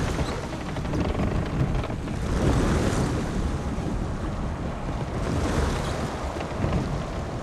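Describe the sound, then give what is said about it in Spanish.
Waves and wind wash continuously at sea as a barge approaches the coast, a loud, dense rush of water and air that swells and eases slightly. No voices are heard. “Aesiclos gira y mira atento hacia el mar. ¡Temístocles! Una barcaza se acerca a la costa.”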